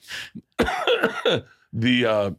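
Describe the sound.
Coughing from someone who aspirates into the lungs: a few harsh coughs and throat-clearing bursts, followed by a longer, voiced, rasping sound.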